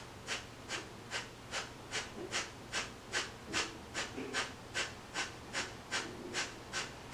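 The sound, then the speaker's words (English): Many short, powerful breath exhales, pumped by pulsing the belly, come in a fast, even rhythm of about two per second, each a sharp, airy puff over a quiet low hum, with no talking. “you're gonna fill your entire lungs and your belly up with air, and you're gonna take short, powerful exhales by pulsing the belly. So it'll sound and look like.”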